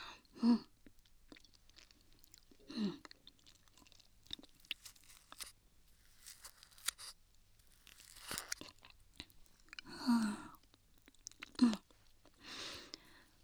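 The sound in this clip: Chewing and eating something cold, mostly faint soft mastication with a few louder, crunchier bites spaced irregularly across a long, quiet stretch.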